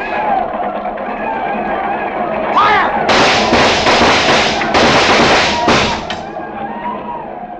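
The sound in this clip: Gunfire in a frontier battle against mounted Apache attackers: a dense, loud volley of rapid cracks and booms bursts out in the middle, with shouting voices around it.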